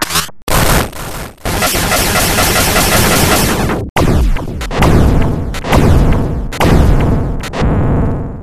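Laser fire in a video game: loud, harsh, dense bursts of electronic zapping, several long blasts separated by brief gaps.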